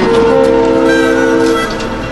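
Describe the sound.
A passenger train rides on rails in California's Napa region, a steady, loud rolling rumble with a sustained tonal hum running through it that eases slightly toward the end.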